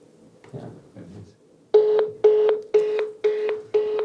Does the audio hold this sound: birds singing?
no